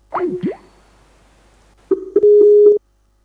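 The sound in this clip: Telephone dialing tones while calling back after a dropped call: two short warbling beeps, a pause of more than a second, then a few more beeps and a steady held tone that cuts off abruptly.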